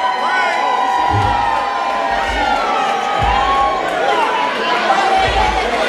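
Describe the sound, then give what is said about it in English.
A crowd cheers and roars at a live DJ birthday event, with whoops, shouts and a few deep thumps under a steady, loud wash of noise. “since the Red Zone, since the Cove, since Fire, since Ice, Long Street Live, Icon, make some noise!”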